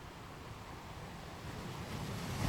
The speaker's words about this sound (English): My voice will end, and the waves and music will continue for a while to help you remain in this deep and restful place as long as you need to.